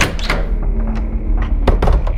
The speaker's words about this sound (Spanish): ¡Doña Francisca! ¡Abra, por favor! ¡Abra la puerta!